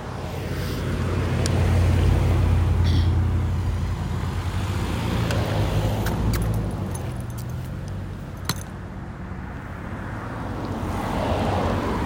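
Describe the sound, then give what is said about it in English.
A passing car makes a broad, steady rumble of road noise that swells, eases, and swells again, with no voices. “There's another car, so I apologize for the noise.”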